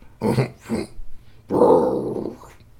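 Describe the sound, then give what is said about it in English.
A voice imitates two bears growling: two short gruff grunts followed by a longer, rumbling growl that trails off. “And the two bears just went,”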